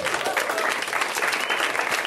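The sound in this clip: A brief burst of audience applause for a performer, a dense and steady patter of clapping hands lasting about two seconds.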